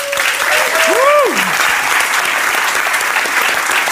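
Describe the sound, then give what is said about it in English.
An audience applauds itself after being thanked for attending, a loud, steady wash of clapping hands. A voice rings out briefly over the opening second. “thank you all for being here, the uh, wonderful audience. Give yourself a hand.”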